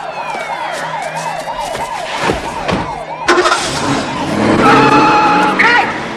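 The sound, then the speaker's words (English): Two police cars drive past with sirens blaring, a rapid rising-and-falling yelp repeating over engine noise and tire skids, with the siren sound swelling louder and more layered toward the end. “watches two police cars drive past”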